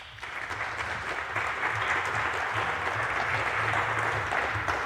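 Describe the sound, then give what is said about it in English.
An audience applauds speakers introduced for a talk on add-on tools for KiCad, a dense, steady wash of many hands clapping that holds evenly from start to finish. “So please give them a big hand.”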